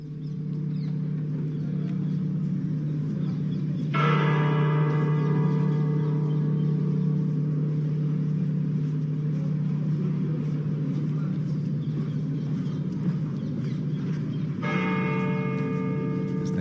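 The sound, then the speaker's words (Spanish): Cathedral bells in Seville toll to mark a pope's death. Two deep strikes come about ten seconds apart, each ringing out in a long, humming decay over a steady low background rumble. “Es el sonido que nos llega desde Sevilla, de las campanas de la Catedral de Sevilla, que están informando a toda la comunidad católica del fallecimiento de un papa.”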